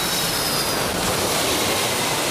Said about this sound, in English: Aviation Quest CC 101, cleared for takeoff, 27 left. V1, rotate.